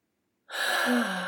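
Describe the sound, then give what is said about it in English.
A single deep breath, drawn as one long, breathy rush of air that starts abruptly after silence and stays loud and steady for about a second. “Two deep breaths, hand on your heart.”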